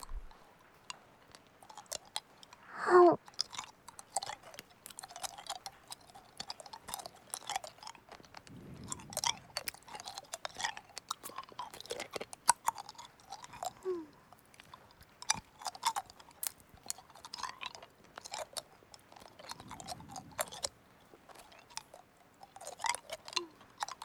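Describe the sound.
Crunchy chewing of food with pickled plum: many quiet, crisp, wet clicks and crackles in a steady, continuous rhythm, with no talking.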